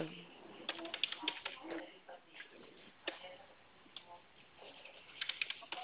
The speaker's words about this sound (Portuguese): Só um momentinho. Ó, tô terminando de digitar a proposta.